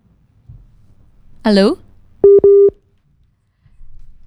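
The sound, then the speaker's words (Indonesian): After a phone call drops, a busy tone sounds as two short, steady, mid-pitched beeps, coming just after a brief voice on the line and followed by near silence. “Halo? Oke, sedikit terputus teman Pro 2 ya, tapi kita akan coba hubungin lagi.”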